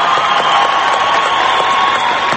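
Dense, continuous applause and crowd noise from a concert audience after a song, loud and unbroken, with a faint steady tone running through the roar.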